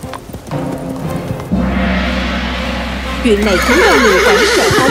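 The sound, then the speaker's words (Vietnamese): A frightened horse neighs shrilly and gallops off. After brief talk, a rushing burst of hoof clatter starts, then loud wavering whinnies ring out over the continuing hoofbeats. “Chuyện này khiến con ngựa hoảng sợ phóng đi.”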